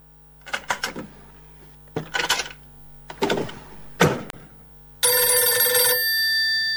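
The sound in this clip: A telephone bell rings in four trilling bursts separated by short pauses, then a louder, steady buzzing tone starts and holds to the end.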